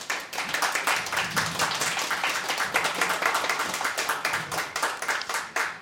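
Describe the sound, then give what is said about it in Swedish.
Dense studio audience applause, a steady crowd of clapping hands that runs loud and even through the whole stretch without talk. “En stor applåd.”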